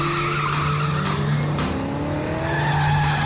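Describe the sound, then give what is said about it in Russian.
A black Toyota speeding in a police chase: a loud, continuous engine roar mixed with squealing tires, steady throughout with no voices. “Водитель черной Тойоты, примите вправо.”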